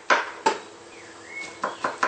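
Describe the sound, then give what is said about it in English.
A knife chops vegan mock chicken and two small mushrooms. A few sharp, quiet chopping knocks fall at uneven intervals, and a faint gliding tone passes between them. “I use a half of the can of the mock chicken, meaning vegan protein, and 2 small mushrooms, and chop.”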